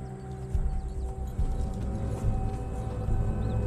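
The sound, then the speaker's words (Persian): Hooves of a horse carrying a rider clip-clop as it approaches, making soft, irregular thuds against a low, steady drone. No neighing stands out. “یه سوار داره میاد. کیه؟”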